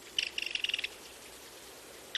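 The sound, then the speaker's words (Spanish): A common kingfisher calls in a rapid, high, thin series of piercing notes lasting under a second, followed by a quiet pause, then a brief second burst of the same sharp notes at the end. “estaba escuchando el sonido de este martín pescador.”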